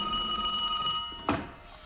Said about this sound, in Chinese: 长官，华北方面军司令官的电话。